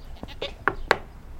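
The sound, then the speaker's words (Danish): Faint goat bleats on a large farm on the edge of Borup, Denmark. A few short, nasal calls come one after another in about a second, growing slightly stronger. “Der er nogle geder der.”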